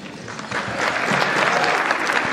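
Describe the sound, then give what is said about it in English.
An audience applauds President Joe Biden as he is introduced. The clapping is dense and continuous, and it swells slightly louder after the first half second before holding steady. “So Joe Biden began by joking about how only 42% were applauding him.”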